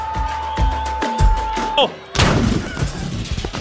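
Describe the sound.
A loud gunshot sound effect, aimed at a football commentator in a comedy sketch, breaks out as a sudden broad burst with rumbling noise trailing on. A steady tone and a short falling whine come just before it.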